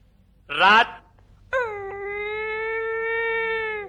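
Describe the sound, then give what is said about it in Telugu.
A male dog howls at night: first a short, wavering cry, then after a pause a long, steady, high howl that holds an almost level pitch until the end. “అదిగోనండి అయ్యా, ఇదే type అండి. అర్థమైపోయింది, case మొత్తం అర్థమైపోయింది. మగ కుక్క, రాత్రిపూట పడుకోబోయే ముందు ఇలా అరుస్తుందంటే ఆ అరుపుకు అర్థం తెలుసా నీకు?”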